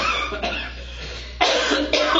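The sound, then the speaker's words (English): Several hoarse coughs from a person with a lingering cough after a cold or flu, sitting deep in the lungs. A few sharp, loud, breathy bursts follow one another, with no speech between them. “I've still got this residual cough going on now.”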